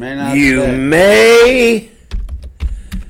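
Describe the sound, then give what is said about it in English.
Computer keyboard typing: a voice sounds first, then a few quick, dry keystroke clicks follow in an irregular pattern. “I'm going to type that up.”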